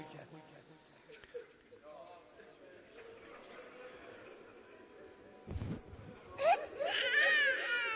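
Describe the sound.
A young child cries near the end in short, high-pitched bursts, rising over steady adult talk heard throughout.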